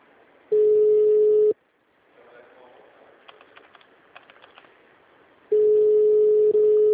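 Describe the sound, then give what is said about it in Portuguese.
A telephone busy signal sounds as a loud, steady low beep about a second long. A quieter gap with faint keyboard typing follows, then the beep returns. “Chamada sobre ocupado.”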